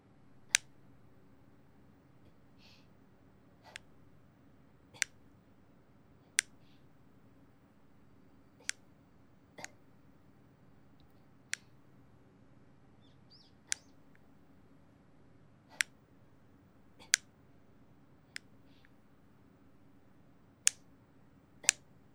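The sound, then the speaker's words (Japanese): Nail clippers snipping nails: many sharp, crisp clicks, each isolated and spaced a second or two apart, sounding quietly over a faint background hiss. “爪を切るパチンパチンっていう音、”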